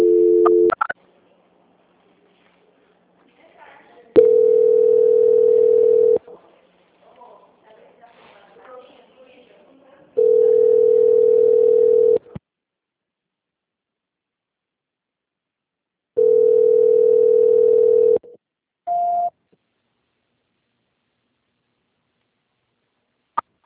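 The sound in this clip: Telephone line tones while a call is transferred: three steady mid-pitched beeps about two seconds long, spaced several seconds apart with silence between, plus brief tones at the start and near the end.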